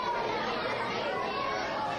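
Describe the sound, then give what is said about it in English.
Continuous hubbub from roughly 100 third- and fifth-grade children at school lunch, many overlapping young voices blending into an even, unbroken crowd murmur. “Such a familiar noise. For many of us, it's probably far removed, but that's the sound of about 100 third and fifth graders eating lunch at school.”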